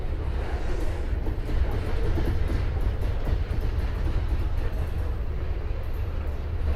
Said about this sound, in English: now we've got to wait for this train before we can get any comforts